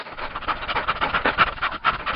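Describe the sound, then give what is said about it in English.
Dogs pant after a long walk, mouths open: a fast, steady run of many breathy puffs in a quick, even rhythm that continues throughout at a moderate level. “pant for all they are worth, mouth open, tongues hanging out, gasping breath and drool, one package of canine exertion.”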